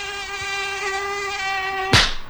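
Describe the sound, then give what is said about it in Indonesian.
An Aedes aegypti mosquito buzzes on a hot day with a steady, thin, high-pitched whine that stays loud and unbroken until a single sharp impact near the end. “Aduh, nyamuknya ganas banget sih siang-siang gini. Belang-belang lagi warnanya. Nah, itu dia. Nyamuk Aedes aegypti.”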